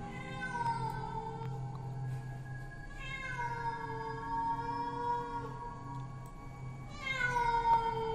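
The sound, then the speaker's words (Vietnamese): Feral cats in a forest yowl loudly. Long, drawn-out, wavering wails overlap one another and keep going through the whole clip, with fresh cries rising near the end. “thay vào đó là bầy mèo hoang ở trên rừng đang kêu lên inh ỏi. Một lúc tiếng mèo kêu bắt đầu nhiều hơn”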